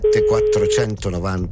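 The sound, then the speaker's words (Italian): A steady single-pitch telephone ringing tone sounds while a caller phones a contest listener. It holds for just under a second beneath a talking voice, and the voice carries on after the tone stops. “un ascoltatore che dovrà rispondere al telefono perché stiamo per chiamare Dario”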